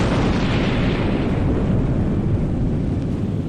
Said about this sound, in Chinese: 原子弹的巨响尚未散去